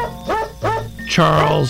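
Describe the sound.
Dog barks edited into a holiday melody: three pitched barks in a row, the first two short and the last held longer and lower.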